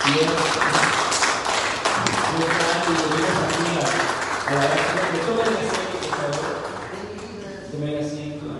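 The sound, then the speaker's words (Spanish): A church audience claps its hands in praise during a service. The applause is mixed with voices and tonal sound and stays fairly steady before easing toward the end. “¿Por qué no le damos un aplauso al Señor?”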